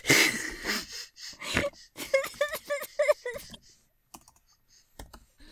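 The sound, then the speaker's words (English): Computer keyboard typing as someone takes notes, heard as scattered light clicks near the end, following an opening burst of noisy rustle and a stretch of wheezy, breathy vocal sounds. “Oh, I can't even type my notes. Okay. I'm taking notes, don't worry.”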